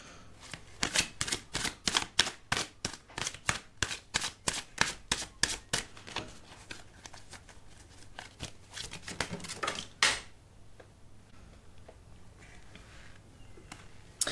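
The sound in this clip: Tarot cards being shuffled, a rapid run of crisp, evenly spaced snaps and flutters that carries on for several seconds before thinning into quieter, sparser ticks.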